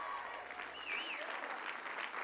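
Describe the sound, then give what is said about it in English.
Congregation clapping at a church service right after a worship song, a dense, steady wash of applause that stays fairly soft throughout. “Oh, clap your hands right now.”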